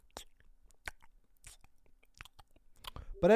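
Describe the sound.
Wet chewing imitated by a man's mouth held close to the microphone: a few soft, scattered smacks and clicks, then a louder voiced burst at the end.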